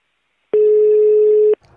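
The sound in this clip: A telephone ringback tone on a call that is finally answered: one steady, loud, mid-pitched beep lasting about a second, then it cuts off into faint sound on the line.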